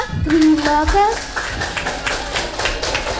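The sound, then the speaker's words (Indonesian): Scattered hand claps come from the studio audience of a children's radio show. A voice is heard at the start, then a run of sharp, uneven claps follows. “Mana tepuk tangannya?”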